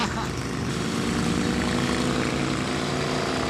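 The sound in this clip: An engine pulling hard at low revs with strong low-end torque: a steady, deep, continuous drone with a thick low hum that holds evenly throughout.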